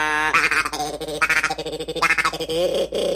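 A duck call is blown in many buzzy, reedy quacking notes, with longer harmonic honks alternating with short pulsing bursts, at a moderate level with no other sounds.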